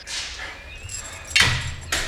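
A door is pulled open a crack and caught on a security chain, giving a sharp clack and then a second knock a moment later over a low, steady hum.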